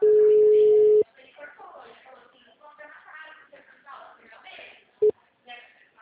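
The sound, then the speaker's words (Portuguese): A telephone ringback tone plays on an outgoing call. A steady, low tone holds for about a second, and a second short burst comes about four seconds later. People talk quietly during the gap. “a gente tá falando agora pelo WhatsApp, eu achei melhor ligar.”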